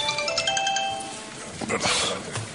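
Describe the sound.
A mobile phone ringtone sounds during a municipal council meeting in Lanzarote: a few bright, melodic electronic notes ring out over the first second or so, then fade into soft rustling room noise.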